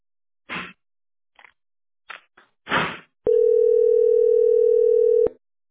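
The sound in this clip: A telephone ringback tone on an unanswered call: one steady, mid-pitched electronic tone holds for about two seconds. It comes after a few short, scattered clattering knocks and rustles.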